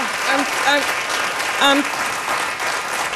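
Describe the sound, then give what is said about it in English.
Dense, steady applause from an audience giving a standing ovation, loud and continuous throughout, with a few voices rising briefly above the clapping. “She got a standing ovation and said this to the audience.”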